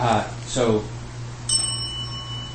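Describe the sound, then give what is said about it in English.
A single bell strike rung to accompany bows rings out after a stretch of talk, its bright, sustained tone lingering steadily and evenly to the end. “This bell often accompanies our bows.”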